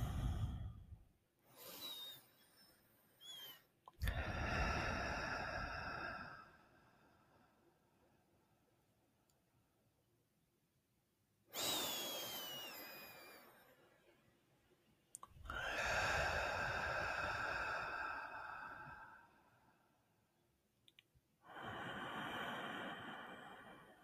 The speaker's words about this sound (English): and just relax. Taking some deep breaths.